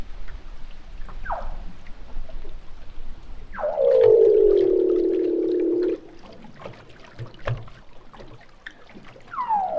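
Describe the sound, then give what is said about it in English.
Underwater calls of a seal, captured with a hydrophone: a few short descending chirps, then a loud, long low droning buzz of about two seconds, with scattered crackling clicks and another falling sweep at the end. “Now, I feel like I can guess what this one's going to be from the file name. Seal underwater.”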